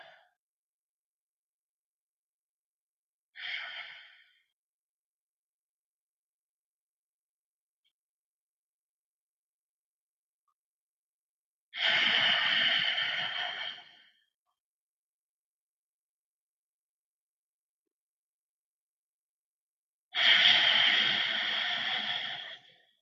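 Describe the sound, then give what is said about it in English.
Slow, deep breaths taken to settle in before a guided meditation: three soft, breathy rushes of air, the first short and the last two long and drawn out, separated by long stretches of silence. “we're going to begin by just centering ourselves by taking some long, slow, deep breaths.”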